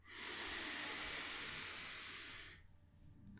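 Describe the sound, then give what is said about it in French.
A deep breath drawn in through the nose during a vowel-chanting breathing exercise, a steady breathy hiss lasting about two and a half seconds before fading to quiet. “expire l'air qui reste. Et on inspire profondément.”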